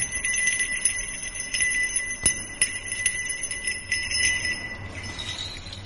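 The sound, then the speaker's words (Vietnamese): Tinkling bells ring on and on with bright, high metallic tones and a few sharper strikes standing out. The sound stays moderately soft and steady, then thins toward the end. “bỗng nhiên thần Nhạc Linh ở bên kia kêu lên những tiếng leng ca leng keng. Tiếng kêu thanh thúy phát ra làm cho Bạch Phàm”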